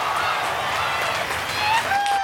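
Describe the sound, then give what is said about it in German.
Audience applause, a dense, even wash of clapping that holds steady at the same loudness for the whole moment. “Also erstmal einen dicken, fetten Applaus für euch.”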